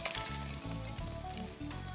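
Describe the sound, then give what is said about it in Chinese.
King oyster mushrooms stir-fry in hot oil for a one-pot dish, giving a steady, loud sizzle with occasional scraping stirs beneath it. “我们利用一些油，好，把它加下来， 好， 下去炒一下杏鲍菇，”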